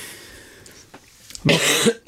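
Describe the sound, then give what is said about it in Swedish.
A loud, harsh cough bursts out near the end after a mostly quiet stretch with a few faint breathy sounds, followed by a short final catch of breath. “Förlåt. Nej, det är ingen fara. Hosta på du.”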